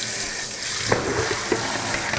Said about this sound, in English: giving my salad its second rinse here. I've just pulled it out of the water